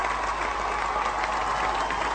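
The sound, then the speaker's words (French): An audience applauds after a song performance, a dense, steady patter of clapping that holds at an even level with no break. “Les amis, c'est bon, les applaudissements là, c'est bon.”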